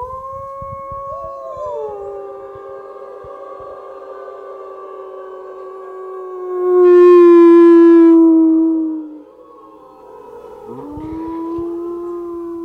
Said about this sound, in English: I haven't heard a wolf howl in 5 years either, so thank you for the wolf howl.